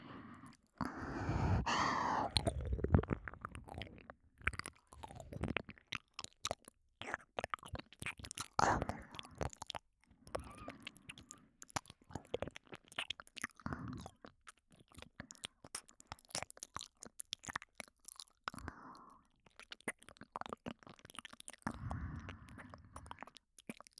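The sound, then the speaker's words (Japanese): ASMR ear-licking mouth sounds, close and wet: many soft smacks, clicks and slurps arriving in irregular bursts, separated by brief breaths and quiet gaps, intimate and low in level throughout. “私がお耳舐めてる間にお召し物も脱いでしまいましょうか。”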